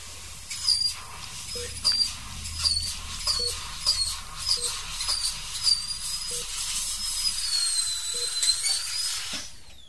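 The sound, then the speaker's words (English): A surgical drill at work during a left-side temporal keyhole craniotomy gives repeated short, high-pitched whirring bursts in an irregular rhythm over a steady hiss. “Tightening Mayfield clamp, beginning on left side. Performing temporal keyhole craniotomy.”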